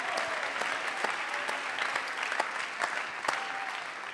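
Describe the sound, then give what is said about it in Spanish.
An audience applauds during a bilingual church service, giving praise to God. Dense, steady clapping with sharp individual claps poking out, moderately loud and continuing throughout without talk. “Si estás agradecido, dele palmas al Señor.”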